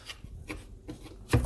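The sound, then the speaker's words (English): A knife chops a red onion in four soft, evenly spaced strokes, the last one the heaviest, with quiet gaps between them. “Alright, red onion's all chopped up.”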